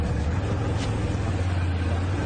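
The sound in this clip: The engine of a Bombardier all-terrain vehicle drones with a steady, low hum as it is driven in low gear over rugged, rocky ground.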